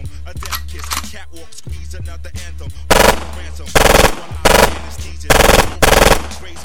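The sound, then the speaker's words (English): Automatic gunfire fired as warning shots: five loud, rapid-fire bursts spread across the second half, each a dense crackling volley that follows a busier, rhythmic stretch with a deep low hum. “let me fire some warning shots”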